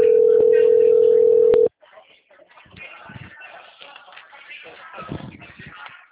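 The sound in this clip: A telephone ringback tone sounds while calling someone: a steady, mid-pitched tone for under two seconds that cuts off abruptly once the call connects, followed by faint handling and rustling noise on the line.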